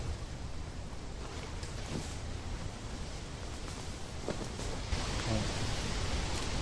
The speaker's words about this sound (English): It actually sounds so peaceful. Just hear the wind and the trees.